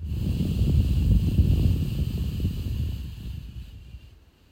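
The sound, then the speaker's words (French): A slow nasal exhale through the left nostril during a breathing exercise: a soft, steady airy rush that lasts several seconds and gradually fades away at the end. “Expire à gauche.”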